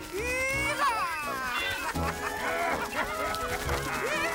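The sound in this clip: Birds being chased in an audio drama, squawking and clucking like chickens in busy, overlapping bursts. The calls are loud and constant throughout, with shrill rising cries scattered among them.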